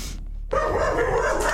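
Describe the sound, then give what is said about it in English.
A dog barks in a loud, sustained burst that starts abruptly partway through. The pet was brought along to an appointment and is acting protective of its anxious owner. “I'm sorry, my dog came with me. Can I bring my dog too?”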